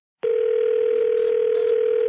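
After a brief silence, a telephone dial tone sounds when a call is hung up and the phone is left off the hook: one steady, unbroken tone holding at even loudness.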